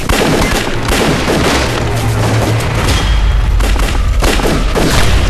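Battle gunfire rattles in dense, rapid, overlapping shots, loud and unbroken, with deep booms rolling underneath and no talk.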